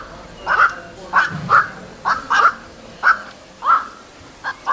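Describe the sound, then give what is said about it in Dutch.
Harsh, croaking calls of a night heron, short nasal barks repeated at irregular intervals over quiet background hiss. “het zou wel eens een kwak kunnen zijn. En daar gaan we dan eerst even naar luisteren. Naar de opname van de kwak.”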